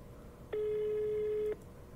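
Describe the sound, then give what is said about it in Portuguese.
A telephone call going unanswered: a single steady ringback tone lasting about one second, clear and fairly loud, with faint background noise before and after. “Por que ele não tá atendendo o CNA? Tem outro telefone, vamos ligar o outro.”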